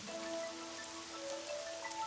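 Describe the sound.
Rain falling outside, heard as a steady, even hiss with no breaks and fairly faint, with no voices.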